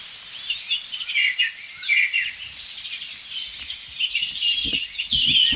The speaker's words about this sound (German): Komm, ich denke, das ist ein Rotkehlchen aus der Wand. Ich bin ziemlich sicher.